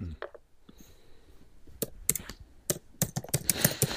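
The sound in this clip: Fingers typing on a computer keyboard to search something online: many quick, irregular key clicks that start sparse and grow denser and louder toward the end.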